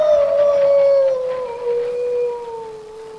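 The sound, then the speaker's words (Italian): A wolf howls in one long, sustained, mournful note that holds steady and then drifts slightly lower as it trails off, loud and unaccompanied throughout. “Lupo ulula”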